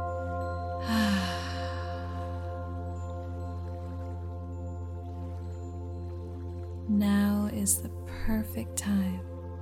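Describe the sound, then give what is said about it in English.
Slow, deep breathing during a guided meditation: soft, airy inhales and long, full exhales, with a hushed breath early on and a longer stretch of breath later, over a steady low drone. “Inhale deeply. Exhale fully.”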